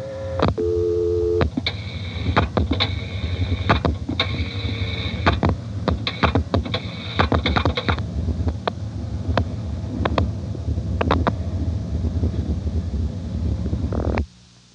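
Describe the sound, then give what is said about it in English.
A telephone line repeatedly clicks and drops out while a Centrex director pulses out redialed digits. Brief steady tones, sharp clicks and a low line hum run through it until the connection cuts off abruptly at the end. “I'll dial the 511 very quickly so that we can hear the Centrex director redialing the three digits. You'll hear it cut out three times while it's pulsing.”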